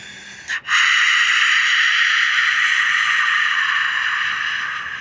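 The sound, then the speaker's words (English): Ujjayi yogic breathing through a gently constricted throat: a brief breath sound, then one long, loud, steady hissing exhale that fades slightly toward the end, with no talking. “Ujjayi breath. It's a yogic breath. You breathe in by your nose, out by either your nose or your throat, and you make a little sound like this.”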